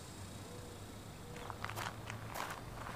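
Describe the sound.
Footsteps of people walking across desert ground, a few faint, crunching steps in the second half over a steady, hissy background.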